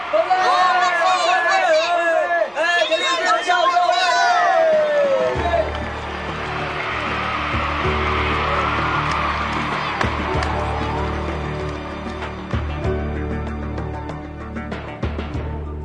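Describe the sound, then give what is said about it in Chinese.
Enthusiastic students crowd around Galileo and cheer loudly. Excited, pitch-sliding voices come first, then a sustained, dense crowd roar of cheering and shouting over a low rumble. “当伽利略走下比萨斜塔时，他被热情的学生们包围，而且高声欢呼”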